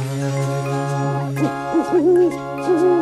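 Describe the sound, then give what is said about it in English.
Owls hoot at twilight: a steady low tone gives way to a few wavering, rounded hoots with sliding pitch, fairly loud and with no voices. “Owls hooting in the moon at twilight.”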